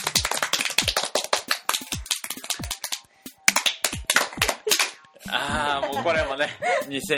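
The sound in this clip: Scattered applause comes from an audience: sharp, uneven claps arrive in irregular bursts, with brief gaps between them. Near the end the clapping gives way to a voice speaking.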